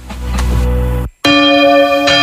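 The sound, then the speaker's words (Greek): Church bells ring out loud and sustained, their tones humming with lingering overtones, briefly cut by a short gap before another bright strike resumes the ringing. “Δεν μπορώ άλλο με τις καμπάνες.”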